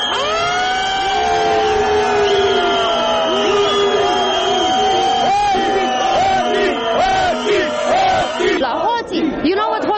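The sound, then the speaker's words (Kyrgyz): Loud crowd chanting from Romanian protesters at a street demonstration, many voices shouting the word for "thieves" in unison, sustained and forceful throughout. “Демонстранттар эмне деп жатышат? Билесизби? Алар уурулар. Уурулар деп жатышат.”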